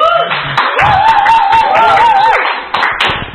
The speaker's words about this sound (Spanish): Un aplauso, que se oiga el aplauso.